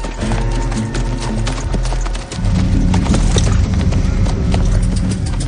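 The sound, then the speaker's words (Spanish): A horse's hooves clop as its rider slowly moves it into position in an old Western town, with many distinct hoofbeats that grow louder in the second half. “Lentamente se sitúa con su caballo bajo la ventana de la habitación.”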